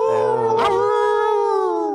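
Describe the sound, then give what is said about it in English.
A dog gives a long, sustained, high-pitched howl that holds a steady tone for about two seconds, loud and alone, with no separate bark bursts. “it's a big woof girl from us and maybe a bark”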